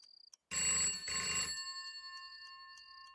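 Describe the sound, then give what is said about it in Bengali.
A home landline telephone bell rings harshly in two quick bursts, its metallic tone ringing on and slowly fading; a few faint ticks come just before it. “ঘুম ভাঙল ফোনের কর্কশ শব্দে।”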